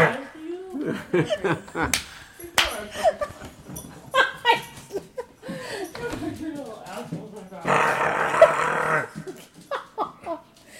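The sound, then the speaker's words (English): A dog growls and snarls in rough, throaty bursts, with a longer, louder growl near the end. Laughter and people talking run throughout. “Demon-possessed dog. Did you just get bit? I think we should leave that in. We got a demon-possessed dog here.”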